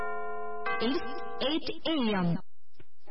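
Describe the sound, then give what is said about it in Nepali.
A sustained electronic tone with layered harmonics marks 8 a.m. as the time signal of a 99.8 MHz radio station. It holds steady for just over half a second, and a voice then talks over a lively, shifting pitch. “99.8 megahertz साहिनो समय सूचक अहिले बिहानको 8 बज्यो”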